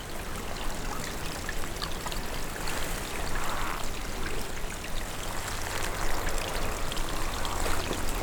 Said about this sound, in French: Et où s'écoule délicatement un petit filet d'eau.